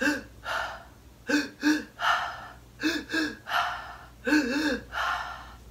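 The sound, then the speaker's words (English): Deep breathing through the mouth during a breath-work exercise, with the belly and then the chest filling: many loud, rhythmic breaths in and out, some sharp like gasps and others longer and airy, heard alone. “Basically, you breathe in, have your stomach fill out, and then breathe through your chest. Your chest fills up, and then breathe out. And this is all done through the mouth. So it'll be like,”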